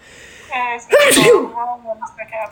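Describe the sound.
A single sharp human sneeze bursts out loudly between stretches of casual conversation, with people talking just before and after it.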